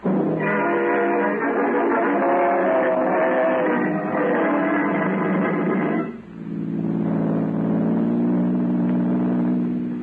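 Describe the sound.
A car drives off, its engine note loud and steady with a full, rumbling tone. The sound briefly dips partway through, then the motor carries on strongly to the end.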